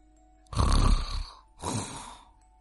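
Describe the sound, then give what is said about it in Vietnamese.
Loud snoring from a prisoner in a cell: two long, rasping snores, the first stronger and longer, separated by a brief pause. “Đó chính là tiếng ngáy. Nhưng kẻ nào lại dám ngáy to như vậy ở trong này?”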